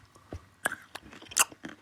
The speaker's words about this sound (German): Was isst du da? Das ist ein Zimtmandel.